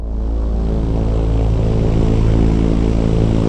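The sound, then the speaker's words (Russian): A radar-equipped airplane flying high in the sky gives off a loud, steady engine drone with a deep, humming tone that holds evenly throughout. “Высоко в небе летит самолет. На его корпусе установлен радар.”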